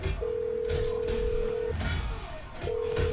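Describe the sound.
Ringing tone of an outgoing phone call: a steady low tone that sounds once for about a second and a half, pauses, then starts again, over constant background noise.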